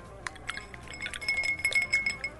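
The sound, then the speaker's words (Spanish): Light clinking of whisky in a plain shot glass: several faint, irregular taps with a thin ringing tone, over a soft background hiss. “Con unos tragos, un whisky en un vaso de copetín.”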